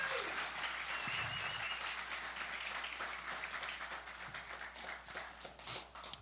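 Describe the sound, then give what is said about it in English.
Audience applause welcoming a couple onto a stage: dense, steady clapping fills the whole stretch, easing slightly toward the end with a few sharper claps standing out. “If you guys could just give them a hand and welcome them up with me.”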